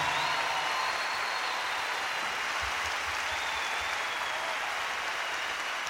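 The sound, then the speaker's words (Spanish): Audience applause for the Venezuelan musicians of a symphony orchestra at a live concert: a dense, even wash of many hands clapping, steady and sustained for the whole stretch without a break. “Yo quiero que me le den un aplauso a estos músicos venezolanos que componen esta orquesta sinfónica.”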